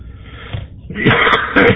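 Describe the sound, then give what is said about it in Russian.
A tobacco smoker coughs: a short, raspy wheezing breath followed by two harsh, loud bursts of coughing in quick succession. “Прошу прощения. Любитель табака, поэтому покашливаю.”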